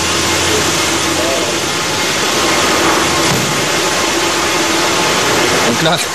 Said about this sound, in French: Là, ça fait évidemment beaucoup de bruit. C'est parce qu'on entend en fait la climatisation qui tourne.